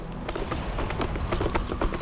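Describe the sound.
Horse hooves clip-clop as a rider, freshly saddled, sets off up a trail. Many quick, quiet hoof beats follow one another in an uneven trotting rhythm.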